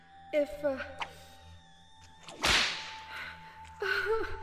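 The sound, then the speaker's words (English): A whip lash lands as one sharp, loud crack in the middle, with vocal sounds before and after it. “deliberately delivered each lash with certain precision, overlapping each stroke slightly over the one before”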